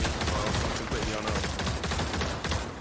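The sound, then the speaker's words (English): Gunfire in a VR video game rattles out as rapid, dense bursts of many shots, loud and continuous, crackling over a thick background din. “Whoa, why are they shooting?”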